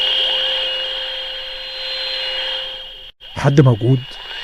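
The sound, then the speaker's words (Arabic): Radio static hisses as a station dial is turned in search of a signal, with steady whining tones layered over the noise. It cuts out abruptly, and a short burst of voice-like sound follows. “اجرب واقلب في البكره بتاعت الراديو، حركت مفتاح المحطه علشان ادور على محطه، لكن مفيش، كله بش وازعاج.”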